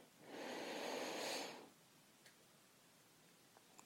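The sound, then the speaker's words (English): A single slow, deep breath drawn by someone being coached to calm down: a soft, airy rush that swells and lasts over a second, then quiet with a few faint ticks. “So let's try a couple of slow, deep breaths, okay?”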